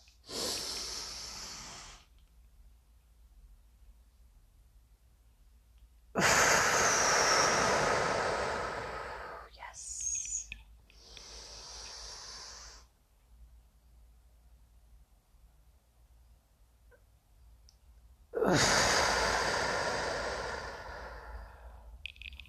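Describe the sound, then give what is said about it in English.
Deep, forceful breathing during a breathing exercise: long, loud, rushing breaths drawn in and pushed out, separated by quieter pauses, with no talk. “Let's take those breaths. First one is always wonderful.”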